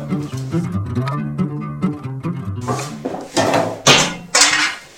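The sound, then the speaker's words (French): An oven door opens on a baked brioche with three sharp metallic clunks and clatters near the end, following a stretch of a low tonal hum. “Ah, le four qui s'est ouvert, 12h40, je crois que ça sent bon pour la brioche, là.”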